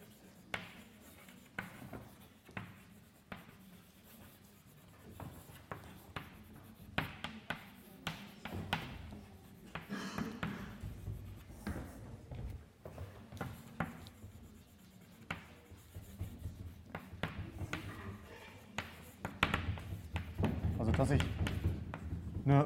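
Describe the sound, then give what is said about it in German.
Writing on a board during a mathematics lecture: many scratchy strokes and light taps that come and go, mostly beneath a voice speaking. “Ich schreibe es nochmal kurz hin.”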